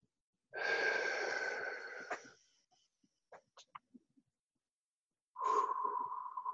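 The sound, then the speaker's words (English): Breath pushed out through slightly pursed lips in a guided breathing exercise: two airy exhalations carrying a soft whistling tone, the first about a second and a half long, then a pause with a few faint clicks before the second begins. “I'll get you to breathe out through your mouth using slightly pursed lips. So it makes a little sound like this.”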